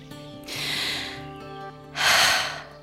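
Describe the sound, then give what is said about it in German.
Deep inhales through the nose on walking into a forest: two drawn-out, breathy sniffs, the second louder and sharper, over a soft tonal background. “Das ist immer das Erste, was ich ganz automatisch mache, wenn ich in den Wald gehe. Tief einatmen.”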